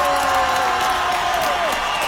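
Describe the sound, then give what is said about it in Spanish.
Audience applause and cheering at a show for goalkeeper Guillermo Ochoa, a dense, even roar of clapping sustained at a constant level, with a tone sliding downward near the end. “El mejor aplauso para Guillermo Ochoa, por favor.”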